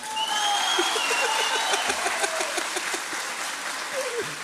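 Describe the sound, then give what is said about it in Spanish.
Audience applause at a Chilean improvised folk verse-singing event, a steady wash of clapping that holds at an even level throughout without breaking. “Pide aplauso para el otro.”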